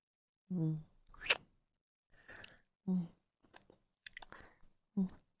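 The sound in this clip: Chewing while tasting food: soft, wet mouth sounds and small smacks alternate with a few short murmured hums and breaths, all quiet.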